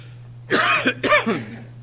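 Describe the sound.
Two harsh, loud coughs in quick succession during a sermon, over a steady low hum.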